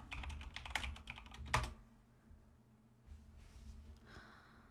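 Someone types on a computer keyboard to search for songs during a livestream. A quick, rapid run of crisp keystrokes ends in a sharper final tap, followed by near silence and a few faint, scattered clicks.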